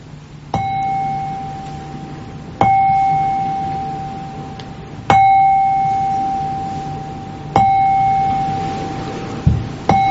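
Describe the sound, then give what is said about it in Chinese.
A struck qing chime bowl, used while listeners are guided to rest their attention on its sound, rings out in four clear strikes spaced a few seconds apart. Each strike gives a bright sustained tone with overtones that lingers until the next. “咁但係呢個耳仔就可以聽住我哋以下落嚟呢慶嘅聲音嘅。”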